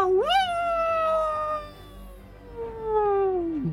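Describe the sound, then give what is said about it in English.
A voice imitating a wolf howling: one long, tonal wail that rises sharply, then slowly falls over several seconds and trails off at the end. “from the shadows edging towards the sea, you see some wolves stalking up on you. One of them comes forward, growling, and then all of a sudden it goes,”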